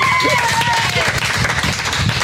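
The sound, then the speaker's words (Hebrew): Audience applause, a dense and steady wash of clapping that holds at an even, fairly loud level, with a voice briefly audible near the start. “כל המיקרופונים רועדים ברוב מחיאות הכפיים.”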